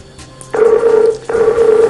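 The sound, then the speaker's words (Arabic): Telephone tones as a call is dialed: a steady mid-pitched electronic tone sounds, breaks off briefly, then resumes at the same pitch. “بدنا نقول لك انه نحن رح نتصل فيك هلا”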